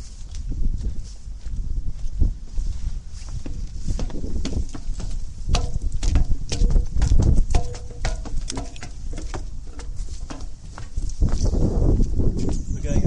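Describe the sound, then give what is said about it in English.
Footsteps climbing stairs onto a telescope structure, a long run of many thumping, irregular treads with rustling between them, while a voice talks over the steps. “We're now going to climb onto the telescope structure. We go up some stairs.”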